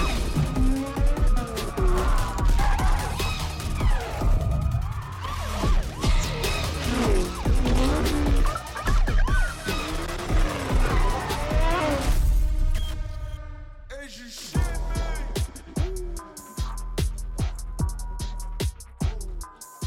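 Racing cars in a new Need for Speed video game trailer: a dense, loud mix of engine roar, skidding and crashing impacts, with a run of sharp hits through the later part.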